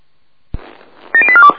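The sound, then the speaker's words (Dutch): Telephone number being dialed: a single click, then a quick run of several short touch-tone beeps in rapid succession, fairly loud, with no talking. “Nou, ik sta met de telefoon in mijn handen. Ik ga u bellen over.”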